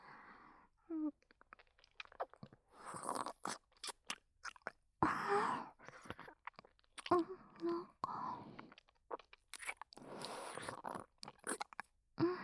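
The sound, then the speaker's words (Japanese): Someone eats rich, springy ramen noodles up close. Soft chewing and wet mouth sounds come in irregular bursts, with quiet whispering and breaths between them. “プリプリの濃厚ラーメン、一滴残らずいただきます。”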